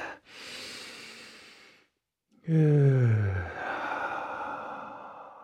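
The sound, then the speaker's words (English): Deep breathing during a heated deep-flow yoga class: a long, airy breath, a short silence, then a louder, voiced exhale that sounds like a sigh and trails off. “Deep breath coursing through your veins. Deep breath all the way into the soles of the feet.”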